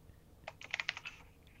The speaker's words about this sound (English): Wait. I'll type in chat in a minute.